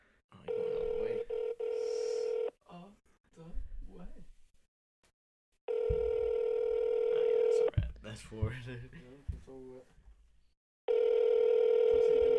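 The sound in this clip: Ringback tone of an unanswered phone call: three long, steady buzzing rings separated by pauses, with voices talking in the gaps between them.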